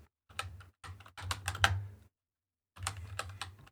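Typing on a computer keyboard, with quick clusters of soft clicking keystrokes in two bursts, a pause, then another short run of typing.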